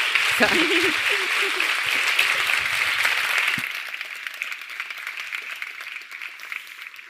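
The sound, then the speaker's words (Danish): An audience applauds to welcome a speaker to an evening talk on gender and the history of Danish democracy. The clapping is a broad, steady wash that drops to a softer level about halfway through and continues to the end. “Så vil I ikke være søde at give Birgitte en kæmpe stor hånd. Velkommen til.”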